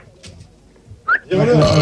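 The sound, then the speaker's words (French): A pig's burp, a loud, low, rumbling eructation that breaks in abruptly after a brief high squeak and drags on unbroken to the end. “C'est le porc qui a roté.”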